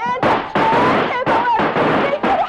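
Gunshots in a radio drama: several loud, sharp blasts in rapid succession, forming a dense, harsh barrage.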